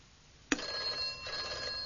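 A telephone bell rings abruptly and keeps ringing, a bright metallic ring with steady sustained tones, loud and alone with no talking.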